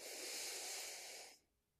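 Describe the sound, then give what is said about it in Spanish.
A slow inhalation during a guided relaxation breathing exercise, drawing air in to fill the abdomen: one steady, soft breathy hiss lasting just over a second, then it stops abruptly into quiet. “Y vas a comenzar a inhalar suavecito, vas a inflar tu abdomen y vas a inhalar.”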